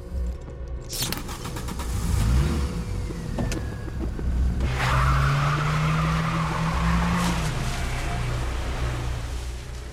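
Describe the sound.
Small car driving off, its engine rumbling and revving, with squealing tires building partway through and a steady engine drone continuing to the end.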